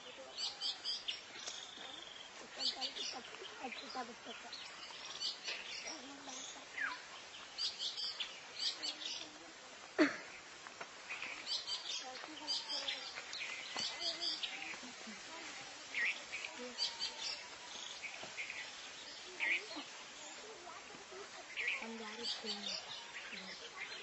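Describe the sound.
An oriental magpie-robin (kacer) sings in long, varied phrases of faint chirps, trills and whistled notes that come in scattered bursts across a soft, continuous background.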